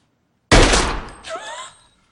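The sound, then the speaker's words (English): A gunshot in a film scene where a character shoots Ben Affleck's character's partner boss: one loud, sharp blast with a long decaying tail, then a second softer burst carrying ringing, wavering tones. “He shoots the guy. He shoots Ben Affleck's partner boss.”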